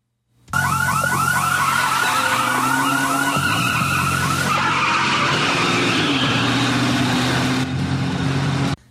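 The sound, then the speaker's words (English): A car speeds and skids out of a parking garage, its tires squealing in loud, warbling screeches over a roaring engine whose pitch steps through several gear changes, continuous and intense from start to finish. “Sydney and Jack drive out of the parking garage onto the road. Jack is still driving very fast.”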